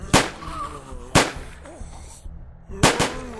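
Gunshots during a shootout inside a house: a few sharp, loud bangs, unevenly spaced, with quieter noise between them.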